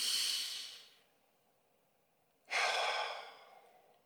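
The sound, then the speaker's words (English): Two deep breaths, each a loud, airy rush of air that slowly fades, separated by a quiet pause, during a guided relaxation in a meadow. “just take a moment to take a big breath in.”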